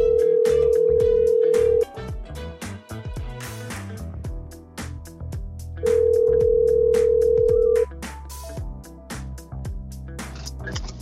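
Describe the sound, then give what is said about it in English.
A telephone line rings while a call is placed to reach a caller: two long, steady tones of about two seconds each, separated by a gap of about four seconds, over a busy, constant background. “let me try to get a caller and on the line and see what that sounds like. Let me test this out.”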